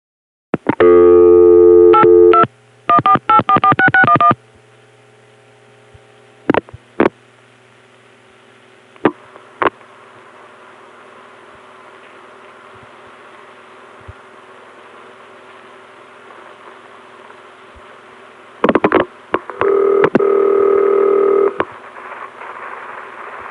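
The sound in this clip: Telephone signalling tones on a CCSA private line: loud bursts of steady tones at the start, several sharp isolated clicks over a low background hiss, then loud tones returning near the end.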